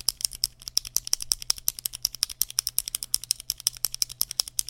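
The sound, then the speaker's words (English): A pen is clicked over and over, a quick, even run of many sharp, faint clicks with no voices. “I'm excited for 2023, so much so that I'm going to click this pen 2023 times.”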